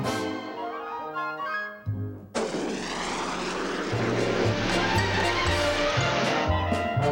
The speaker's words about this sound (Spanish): Propulsión Jet.